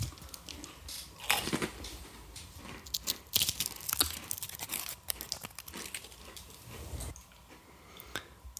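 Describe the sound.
Someone crunches, bites and chews a fortune cookie, making many irregular crackly crunches and crinkling sounds of varying loudness with no talk.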